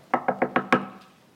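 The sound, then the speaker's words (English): Five sharp knocks on a door as a neighbor comes calling, evenly spaced in a quick steady rhythm, loud and alone, each rap followed by a brief wooden ring that fades after the last one. “let's say that you've got a neighbor that comes over and they knock on the door.”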